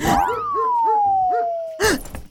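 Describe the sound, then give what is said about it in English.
A dog barks in a video game, a quick run of short, clipped barks alongside a long, smoothly falling whistle-like tone, ending in a louder burst. “Now, up to the source of the barking. Almost there. The barking is coming from just behind this concrete wall.”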